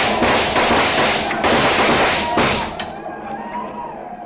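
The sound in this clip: Loud volley of rifle gunfire in a Western battle against attackers on horseback: dense crackling bursts with several sharper reports, tailing off toward the end.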